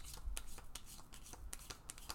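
Angel oracle cards being shuffled, a faint run of many soft, crisp papery flicks and riffles in an uneven rhythm, with no talking.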